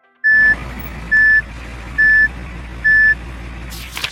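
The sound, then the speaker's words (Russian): Reversing beeps from a truck backing up: four evenly spaced, identical high-pitched electronic beeps over a low engine hum, followed by a brief noisy burst at the very end. “Грузовик отъезжает назад. Пик, пик, пик.”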